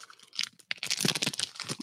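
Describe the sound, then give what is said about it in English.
Crinkly tearing and rustling as a sealed pack of Tito's cocktail cards is ripped open: a few brief crackly bursts, a short pause, then a denser run of crunchy crinkling. “I have not opened this pack of Tito's cocktail cards yet. And maybe I'll just pull one out”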